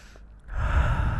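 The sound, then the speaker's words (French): A slow, deep breath is drawn during a guided relaxation, starting partway in and swelling into a steady, breathy rush that lasts to the end. The breath is heard alone, with no talk. “Je t'invite maintenant à prendre une grande respiration et à revenir entièrement dans ton corps.”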